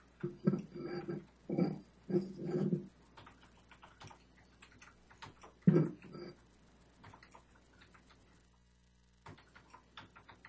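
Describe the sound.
Typing on a computer keyboard: irregular runs of clicking keystrokes, some dense and some sparse, with pauses between the bursts.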